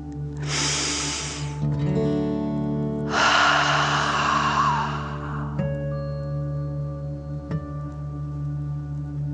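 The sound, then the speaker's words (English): Two long, deep breaths drawn in through the nose during a guided breathing exercise, each a soft rushing hiss lasting a couple of seconds with a pause between. A steady low tonal drone plays quietly underneath throughout. “let's take another deep dragon breath. Fill up your chest and belly, in and out.”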